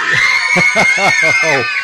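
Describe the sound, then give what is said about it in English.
Loud, sustained screaming and shouting from a group of junior lifeguards on a pier, many young voices overlapping in a continuous high-pitched yell for about two seconds. “Yeah, they're out here on the pier. So give me a scream, guys.”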